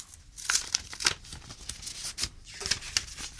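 Paper crinkling and tearing as an envelope is opened, with many quick rustling bursts and sharp crisp tears of varying loudness, heard alone.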